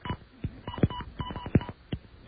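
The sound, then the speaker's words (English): Touch-tone keypad beeps as an international telephone number is dialed with the 01 prefix, a rapid, somewhat uneven run of short, sharp tones. “All right, let's try it again this way. I'll dial 01 instead of 011.”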